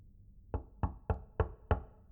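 Five sharp knocks on a door, loud and evenly spaced with no other sound around them.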